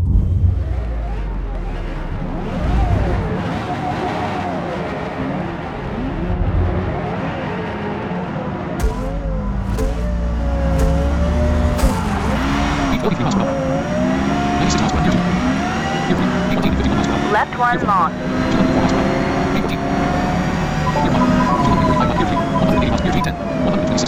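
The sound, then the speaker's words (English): Engine of a 2003 Porsche Carrera GT in a video game circuit race, a steady loud roar with pitch sweeps rising and dropping as it revs through the gears. “Current car. 2003 Porsche Carrera GT. Car level 50.”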